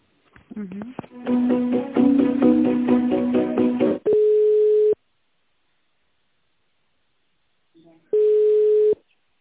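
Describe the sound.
Telephone line tones play while a call is being transferred: a brief rising tone and a dense stretch of layered tones, then two long steady beeps separated by a silent gap.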